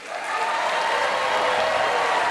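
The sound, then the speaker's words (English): A standing ovation greets Bernie Sanders as he takes the stage at Drake University in Des Moines, in a packed 700-seat auditorium with a full balcony. The dense clapping swells quickly and then holds steady and loud. “When Bernie Sanders took the stage at Drake University in Des Moines Friday night, he got a standing ovation.”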